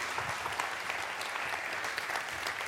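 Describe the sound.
Sustained applause from a church audience welcoming a guest speaker, with dense, even clapping that holds steady throughout without any voices.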